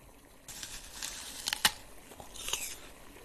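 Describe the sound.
Someone bites into the green half of a fruit, giving a few crisp crunches clustered mid-clip with one sharp peak, then a lighter crunch; fairly faint overall.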